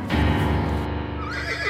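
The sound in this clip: An agitated horse lets out a loud, shaky neigh, a long quavering whinny that carries through almost two seconds.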